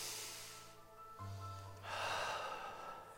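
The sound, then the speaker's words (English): A person draws a deep breath, a long rushing swell of air that grows louder toward the end, over a soft sustained musical background. “I want you to take a deep breath right now. Come on, take a deep breath.”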